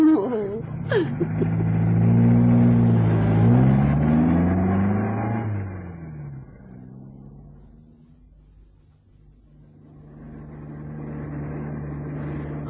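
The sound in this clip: Car engine revving as the car drives off, a loud harmonic drone that wavers in pitch for several seconds, then fades low before swelling again near the end.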